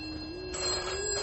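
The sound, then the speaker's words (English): A telephone ringing with a steady, continuous electronic ring that grows a little brighter partway through, with no other sounds. “Answer that bloody phone!”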